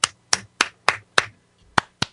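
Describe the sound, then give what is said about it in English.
Hands clapping: seven sharp, crisp claps in a slightly uneven rhythm, with a brief pause before the last two. They are loud and isolated, with no talk. “Good. You can clap.”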